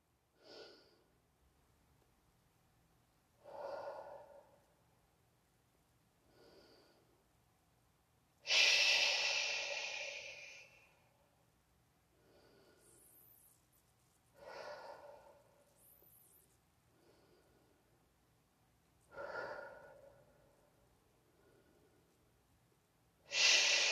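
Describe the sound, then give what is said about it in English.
Slow, deliberate breathing in and out, with quiet pauses between the breaths. The soft airy breaths recur many times at an unhurried pace, and one of them is longer and louder than the rest. “hold your breath for a half a second so you can focus on the word that you just said and then breathe out and say the word again. So it looks like, or it sounds like this.”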